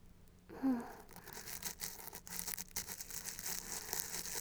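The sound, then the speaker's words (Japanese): A toothbrush scrubbing between the teeth, its tip worked in small, quick strokes: a steady, faint bristly rasp that keeps going throughout, with a slightly firmer stroke near the start. “歯の間の細かい部分は、歯ブラシの先端がしっかり入り込むように、細かく動かして、”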